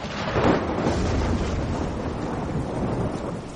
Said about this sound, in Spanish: Fuera la tormenta ilumina la noche.